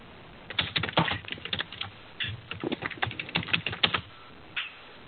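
Computer keyboard typing into a chat, rapid clusters of crisp keystrokes with brief pauses between bursts and a lone final tap near the end, no voices.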